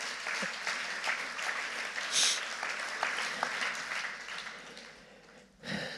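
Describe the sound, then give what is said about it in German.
Applause for a worship team at a church service: many hands clapping steadily at a moderate level, thinning and fading toward the end, followed by a brief louder sound. “Lasst uns mal einen Lobpreis, Beifall fürs Lobpreisteam.”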